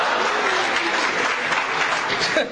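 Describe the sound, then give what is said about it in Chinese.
Audience applause at a live comedic crosstalk performance, a sustained dense patter of clapping at steady loudness that dips slightly at the end. “谢谢大家雷鸣般的掌声，谢谢。”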